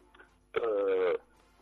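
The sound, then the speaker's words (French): A mobile phone ringtone sounds as one sustained, buzzy harmonic tone of just over half a second. It is loud against a faint murmur before and after. “Là, mon téléphone.”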